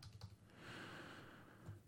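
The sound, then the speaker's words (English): Faint keystrokes on a computer keyboard as a word is typed: soft clicks tapping over a quiet background hiss. “Let me go here, type in the word sister.”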